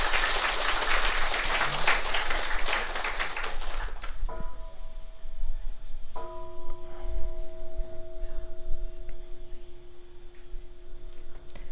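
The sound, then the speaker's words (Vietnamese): Dense audience applause at a Buddhist dharma talk, loud and continuous for about four seconds before it stops abruptly. Afterward a faint low hum remains, with a few steady tones. “Xin quý vị vỗ cho tràng pháp tay.”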